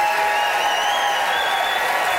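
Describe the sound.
A crowd applauds loudly and steadily in a continuous wash of clapping as a debate audience votes for a debater by applause, with faint cheering mixed in.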